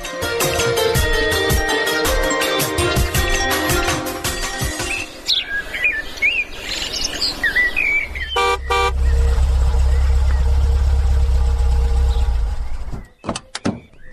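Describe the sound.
A car engine idles with a steady low rumble, alongside loud bird chirps and a brief horn-like toot.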